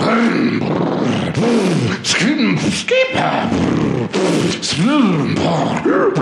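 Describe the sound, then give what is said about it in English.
A voice imitates a go-kart engine warming up, making loud, repeated growling revs that swoop up and down in pitch, broken by sputtering, grunting bursts. “I'm warming up my go-kart.”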